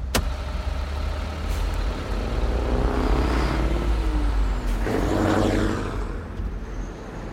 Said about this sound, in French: Je suis toujours fascinée par le magnifique ballet des véhicules qui vont et viennent.